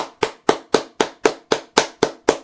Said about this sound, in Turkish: Alkış.